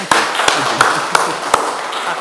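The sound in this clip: Five sharp, loud hand claps from an audience come at a slow, uneven pace under talking, sparse rather than a full round of applause.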